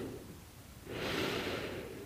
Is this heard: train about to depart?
no